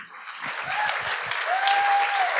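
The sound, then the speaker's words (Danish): Studio audience at a live comedy show applauding a guest: a dense, steady clatter of many hands lasting a couple of seconds, with a faint sustained whistle-like tone running underneath. “Mine damer og herrer, giv en kæmpe stor hånd til en vinterbader.”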